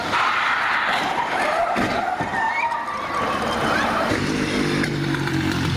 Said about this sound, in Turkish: Ambulans Yavuz Selim Caddesi'nde ilerlerken Fevzi Paşa Caddesi kesişimindeki bir otobüsle çarpıştı. Devrilip sürüklenmeye başladı.